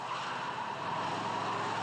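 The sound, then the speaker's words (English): A hearse being driven produces steady engine and road noise, a continuous even rumble and hiss with no voices and no change in level. “Hey, this whole thing handles well. Ever drive a hearse, Harold?”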